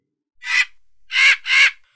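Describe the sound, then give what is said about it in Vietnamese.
Three harsh, raspy caws from large red monster birds, crying excitedly. They are loud and heard alone: one call, a pause, then two more in quick succession. “Quái điểu màu đỏ kêu lên vẻ hưng phấn”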